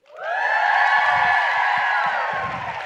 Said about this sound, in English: And we have a live audience of around 175 orthodontic team members. And since you may not be able to see them, I hope that maybe you can hear them.